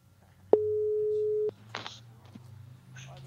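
A single steady telephone tone sounds while a call is being dialled. It holds one even pitch for about a second and then cuts off, followed by a few faint rustles.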